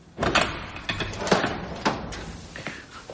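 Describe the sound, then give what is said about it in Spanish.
A prison cell door opens with a few sharp clunks and rattles from its mechanism, spaced irregularly and fairly quiet, with no voices. “Se abre su celda.”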